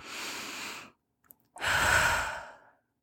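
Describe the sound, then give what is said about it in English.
Deep breaths taken during a guided relaxation exercise with a hand over the heart: two long, airy breath sounds separated by a short pause, the second fuller and louder, with no talking. “put your hand over your heart and take three deep breaths.”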